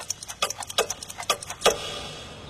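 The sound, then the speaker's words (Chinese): Many clocks ticking together in a palace hall: dense, uneven clicks overlap in a busy clatter, then give way to a steady hiss. “令人奇怪的是，在这些钟表的吵闹声中，慈禧太后如何能够安然入睡？”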